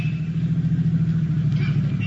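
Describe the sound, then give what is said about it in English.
A car engine hums in a low, steady rumble as the car pulls into a parking space at the curb, with no voices. “Park to the curb. That's the car, all right. There's a parking space past it. Pull in.”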